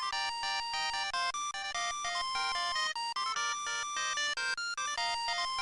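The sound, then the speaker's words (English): A ringtone from the international version of the video game Metal Gear Solid plays alone, a loud electronic melody of rapid, evenly paced beeping notes that jump up and down in pitch and repeat throughout. “In all the international versions, the ringtone sounds like this.”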